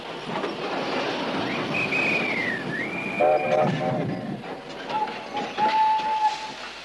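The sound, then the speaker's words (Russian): An armored train pulls into a railway station under a steady rumbling clatter, with high whistle tones sliding and holding over the noise, followed by a few lower sustained whistle notes. “И по чистой случайности на станции Гребешки остановился бронепоезд командарма Седых.”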